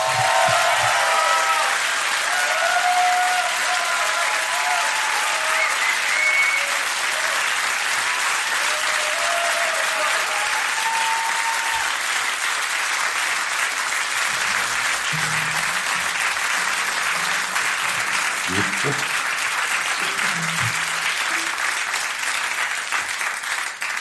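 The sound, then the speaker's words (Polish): Audience applause for bands being introduced at a live radio music event: dense, steady clapping from many hands that holds at an even loudness for the whole stretch. “Brawa!”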